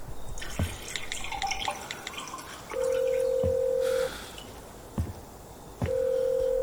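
A telephone is dialled, and a steady mid-pitched call tone sounds in two long pulses. Sharp clicks and faint dripping taps come between them over a quiet background hiss.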